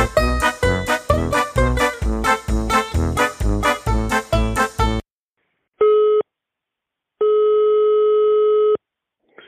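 Telephone ringing tone of an outgoing call, steady mid-pitched bursts, a short one and then a longer one with a third starting at the end, following several seconds of rhythmic music.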